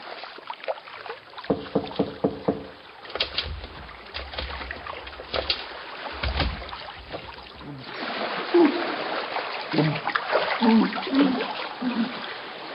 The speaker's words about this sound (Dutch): Ik hoor een borrelend geluid uit de kelder komen.